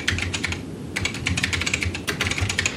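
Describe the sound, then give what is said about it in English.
Fingers type on a quiet computer keyboard, a rapid, irregular stream of soft keystroke clicks with brief pauses, and no voices. “And use my incredibly quiet keyboard so no one knows I was typing.”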